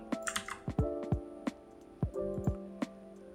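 Typing on a computer keyboard while entering a list into an Excel spreadsheet: many crisp, irregular keystrokes with uneven gaps between them, clicking alone at moderate loudness.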